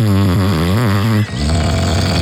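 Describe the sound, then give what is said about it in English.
A human voice imitates a partner's snoring with a loud, drawn-out, wavering throaty snore, then breaks into a rougher, lower rasp. “That'd be great to hear an imitation of your partner's snoring, please.”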